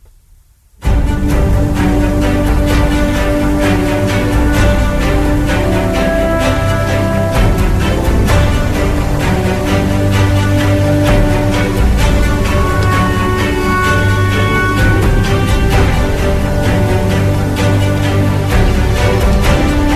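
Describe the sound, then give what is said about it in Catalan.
The Intercity football club anthem plays: after a brief near-silent moment, full, loud instrumental music kicks in and continues steadily at high level throughout. “L'himne té un any i mig de vida i sona així, l'himne de l'Intercity.”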